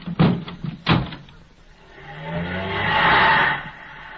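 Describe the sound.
A car door shuts with a couple of dull thuds, then an engine starts and the car pulls away, its hum swelling for a couple of seconds before fading.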